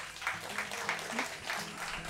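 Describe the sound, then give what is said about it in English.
An audience applauds the workers who set up the gathering, a steady patter of many hands clapping over a low sustained tone, with faint voices beneath. “No, not, I didn't want an applause.”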